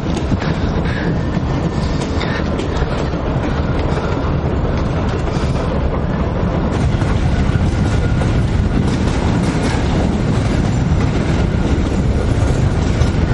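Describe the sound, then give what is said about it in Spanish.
Steady rumble and rattling of a moving train at night, a WWII-era deportation train bound for Auschwitz. The dense, continuous clatter of wheels and wagons runs loud and unbroken throughout, with no voices. “El tren avanza en la oscuridad de la noche.”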